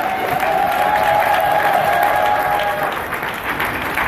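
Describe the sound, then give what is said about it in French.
An audience gives an ovation during a church service: sustained, full applause from a crowd, loud and steady before easing slightly toward the end. “Est-ce que quelqu'un peut donner une ovation au roi des rois ce matin?”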